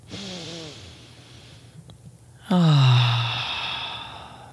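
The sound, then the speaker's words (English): A deep breath taken in a guided session, heard as breathy, voiced, sigh-like exhales: a softer one at the start, then a louder, longer exhale midway that slowly fades, with no talk. “so we're going to take one more deep breath.”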